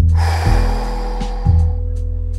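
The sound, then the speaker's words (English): Strong, forceful breathing in and out during an energising breathwork exercise, with a few loud airy breaths alternating over a low, steady drone. “Again in. Big exhale. In. Big exhale. One more. Inhale.”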